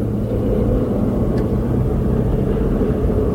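A race car drives through cone-marked turns on a track, its engine a loud, steady low rumble that drones on without clear changes in pitch.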